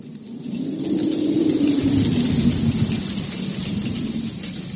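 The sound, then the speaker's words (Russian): Heavy rain drums on a roof and windows, a loud, steady hiss with a low rumbling roar underneath that holds across the whole stretch, with no voices. “Ветер продолжает выть. Ставни скрипят. Дождь стучит в крышу и окна.”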